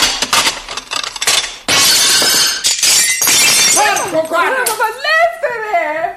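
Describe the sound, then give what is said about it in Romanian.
Porcelain plates smashing: a rapid series of loud, sharp crashes and bright shattering with clinking shards, followed by a voice as the breaking dies down. “Când încep, sparg farfurii de zice. Sparg, mă înțeleg? Sparg al dracului.”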